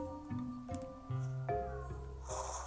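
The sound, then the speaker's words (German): A cat meows in a video game: a few short, tonal cries over steady game sounds, with a brief noisy burst near the end and no talk. “Und hier miaut eine Katze.”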